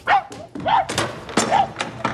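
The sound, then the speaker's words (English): A dog barking in a platoon setting, a rapid series of sharp, fairly loud barks and yips in an uneven rhythm. “If that dog can do the job, Wilson, he's going to be a great asset to this platoon. Yeah, it's an awfully nice dog.”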